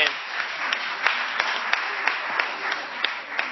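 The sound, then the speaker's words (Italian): An audience applauds at a civic event, a steady patter of clapping with regular sharper claps standing out at an even pace. “un applauso giustamente”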